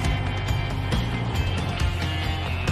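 A red car drives back down a road. A steady low engine hum and road noise hold at a modest level, with a few faint knocks over the top.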